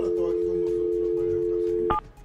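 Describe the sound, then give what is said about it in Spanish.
A steady telephone tone holds for about two seconds as a call is placed, then gives way to a brief, higher keypad beep before cutting out. “Vamos a llamar al Edwin González. Señor Edwin González, a ver si nos contesta”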